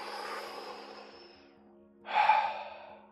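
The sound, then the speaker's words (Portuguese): A deep, slow breath taken during a guided breathing exercise, a soft airy exhale that swells and then fades, heard over a steady low tonal drone. “Começa por inspirar, enchendo a barriga e o peito com ar, e deixa ir o ar, sem forçares a saída do mesmo. Proponho-te que inspires mais do que expiras. Algo como...”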